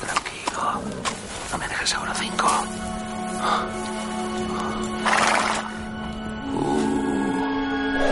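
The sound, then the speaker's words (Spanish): A frightened horse whinnies after a gunshot in a western film scene, a shrill neigh breaking out amid other scattered sounds while a voice talks over it. “El animal relincha asustado por el disparo y Tim se tumba en el suelo resguardándose.”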